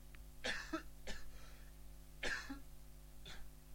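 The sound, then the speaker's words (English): A person coughs several times in two short groups, with dry, throaty bursts and some throat clearing over a faint background hum. “Excuse me, I'm coughing”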